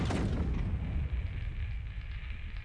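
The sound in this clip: An artillery gun fires a shell: a single loud, deep boom at the start, followed by a low rumbling tail that fades away over about two seconds.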